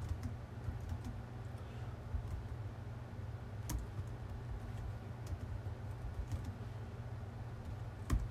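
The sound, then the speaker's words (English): Typing on a computer keyboard, faint, irregular key clicks in quick runs, with one sharper click standing out, over a low, steady background hum. “So let me type it up again. Disease X.”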